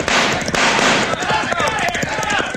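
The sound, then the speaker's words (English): Guns are fired over the heads of bandits in a cattle raid, giving several sharp cracks spaced through a loud, busy mix with shouting voices. “Draw your guns. Fire over their heads.”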